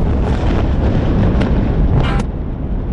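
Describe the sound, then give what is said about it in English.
Explosions from Israeli airstrikes on northern Gaza City make a dense, continuous rumbling roar, with a couple of sharper bursts standing out near the end. “Sound from Israeli airstrikes in northern Gaza City following the attack this weekend.”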